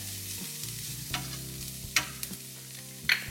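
Small onions sweating in oil in a pan give a steady soft sizzle over a low hum, broken by a few brief stirring taps against the pan; no one speaks.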